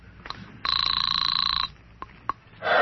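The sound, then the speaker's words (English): A field telephone on a parade reviewing stand rings in one sustained, buzzy electric burst of about a second, followed by a couple of faint clicks and a swell of noise at the end. “Get me the field telephone on the reviewing stand of the Martian Day Parade.”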